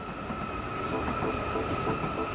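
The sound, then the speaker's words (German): ICE high-speed train arriving at Stuttgart station: a steady, continuous rumble of wheels and carriages with a sustained high whine running through it, fairly even in loudness and with no voices. “Inzwischen ist auch der ICE von Hans Leister in Stuttgart angekommen. Mit 15 Minuten Verspätung.”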